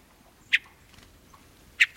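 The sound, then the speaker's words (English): Two short, sharp call notes from a hermit thrush in a mountain forest in summer, spaced a little over a second apart, high and clipped against a quiet background. “Spend time around hermit thrushes in a mountain forest in summer, and you're also likely to hear them make other sounds, such as,”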